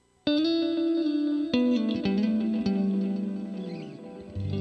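Electric guitar, a Stratocaster fitted with an Evertune bridge, played through big delay and heavy reverb: a few sustained, shimmering notes with crisp attacks step downward in pitch and smear into a wash of echoes.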